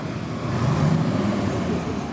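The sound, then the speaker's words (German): A bus carrying refugees pulls away from a Belgrade bus station. Its engine gives a steady, low rumbling drone that swells slightly in the middle, with no voices. “Der Bus fährt ab, 75 Personen nehmen eine weitere Etappe auf der langen Reise in den Norden.”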